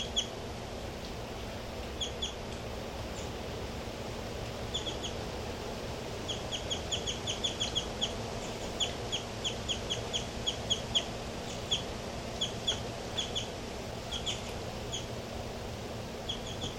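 Bird calls: many short, high chirps repeat at irregular intervals over a steady low hum, fairly faint throughout.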